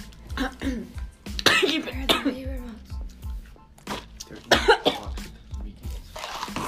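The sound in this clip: Someone coughs repeatedly after inhaling food while eating, in many short, harsh bursts, with people talking in between.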